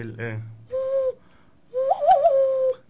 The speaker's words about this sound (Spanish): Este sonido es más como un tipo silbido,